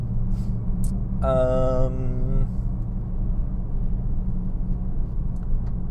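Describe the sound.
A Porsche on new tires slows down, giving a steady low engine and road rumble. A man talks briefly over it.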